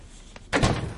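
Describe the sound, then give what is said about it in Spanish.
A house door is opened and shut: a faint click comes first, then a louder thud with a short, dull tail, against a quiet background. “Cruza la valla, sube las escaleras y llama a la puerta. Abre, entra con precaución y cierra.”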